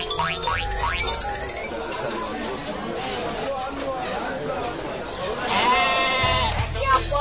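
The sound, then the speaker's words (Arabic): A small sheep bought by Zamalek fans bleats in a few wavering, nasal cries, the loudest near the end, under chattering voices. “يابا الزملكاوية بالحارة مشترين خروف صغيرة وقولوا إذا الزمالك غلب خير نذبح ونوزع الناس ببلاش.”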